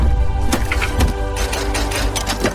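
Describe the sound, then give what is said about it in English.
Sci-fi film sound effect of a time machine activating: a loud mechanical whirring hum with layered tonal harmonics and quick pulsing clicks, with no voices. “What is it? It's a time machine.”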